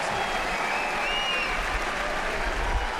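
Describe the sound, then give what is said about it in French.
Dense applause and crowd roar fill a tennis stadium as spectators do the Mexican wave, even in the presidential stands. The sound is a steady, even wash of clapping and crowd noise that holds throughout. “La Ola, tout le monde y participe, même les tribunes présidentielles. Ils se sont levés.”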